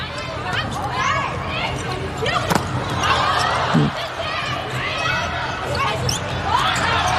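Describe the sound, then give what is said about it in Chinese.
Sharp slaps of a volleyball being served and struck by a substitute player during a match against Thailand, with a few brief hits amid constant crowd chatter and shouts in the arena. “现在是杨淑明啊，替补发球”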